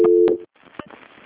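A telephone call transfer tone, a steady low beep lasting under half a second with a brief break, then faint line noise.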